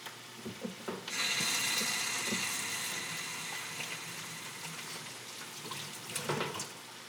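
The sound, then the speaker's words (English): Hands being washed under a running tap while ground meat is prepared for cooking, a steady, soft hiss of flowing water starting after a few faint knocks and continuing to the end, with slight splashing swells. “Going to give my hands a nice wash.”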